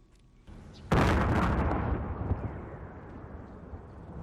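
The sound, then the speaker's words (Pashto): A single loud explosion at night in Kabul hits suddenly after a faint low hiss, followed by a long, deep rumbling decay that fades slowly. “دا د هغه چاودنې غږ دی چې د دوشنبه په شپه باندې په کابل کې وشوه.”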